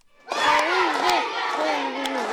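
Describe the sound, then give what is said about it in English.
A crowd chanting and clapping at a high school varsity basketball game in Ashland, Nebraska. Loud, sustained massed voices shout in a rising-and-falling cadence, with a few sharp claps cutting through. “claps her hands and chants to support her local high school's varsity basketball team”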